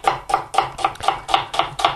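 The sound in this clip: A knife chopping onions quickly on a board as a cook works through a large batch: eight crisp, even strokes in a fast, steady rhythm, with nothing else heard.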